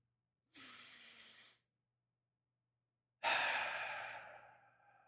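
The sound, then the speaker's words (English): A deep breath during a guided relaxation exercise: a steady airy inhale, a pause of silence, then a louder breathy exhale out through the mouth that fades away gradually. “feel all of the tension in your body going out through your mouth. Take another breath.”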